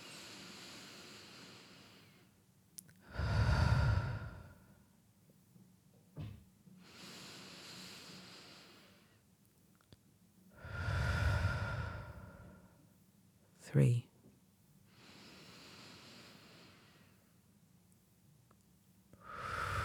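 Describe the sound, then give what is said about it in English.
Slow, deep breathing during a guided calming exercise. Long inhales and exhales come at an unhurried, even pace, some breaths louder and fuller than others, with a couple of faint clicks between them. “Close your eyes and just take the first of your deep breaths. That's one, let's keep going.”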